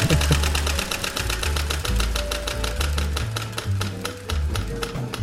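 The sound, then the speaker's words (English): Prize wheel spinning, its pointer clicking in a rapid, even stream of ticks that runs throughout, layered over low, humming tones that shift in steps. “We will spin the accursed wheel of states.”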